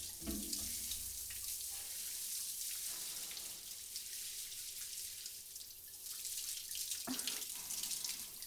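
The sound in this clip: Tap water runs steadily as it is poured to rinse someone, a continuous splashing hiss with no voices.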